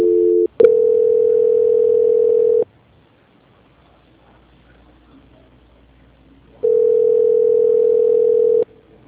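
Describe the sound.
Steady mid-pitched telephone tone during a call transfer. It cuts out briefly, holds for about two seconds, goes silent for roughly four seconds, then returns for another two seconds.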